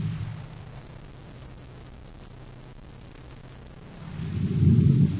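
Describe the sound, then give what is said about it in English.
Lava flow tearing up trees and pushing rocks along, a low continuous rumbling roar that holds steady and then swells louder toward the end. “the hot lava, it's tearing up the trees and pushing rocks along.”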